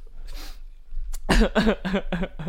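A man coughs after choking on a fizzy drink, with a short breathy gasp first and then a rapid run of several harsh, throaty coughs in close rhythm.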